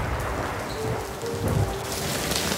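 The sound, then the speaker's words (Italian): A hailstorm with rain strikes a town, a dense, steady hiss and patter of falling drops and ice that holds at an even, loud level throughout. “Quella notte una tempesta di grandine colpì la città.”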